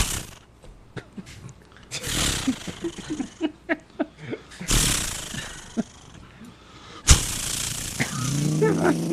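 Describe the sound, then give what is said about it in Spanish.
A voice imitates a chainsaw being started: a string of short, sputtering pull-cord bursts, then loud rasping revs that swell and cut off, with a final harsh roar at the end. “No, es una motosierra. Que hay que prenderla. Hay que prenderla.”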